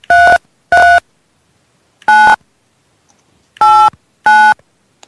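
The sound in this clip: Telephone keypad touch-tones punch in a ten-digit voicemail mailbox number: five loud, clean beeps in an uneven rhythm, some close together and others after longer gaps, with silence between and no talk.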